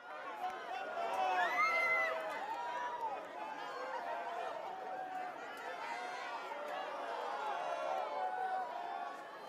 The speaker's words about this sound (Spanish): hace el giro con este pequeño papamóvil entre los fieles. Y vamos a escuchar la alegría en directo.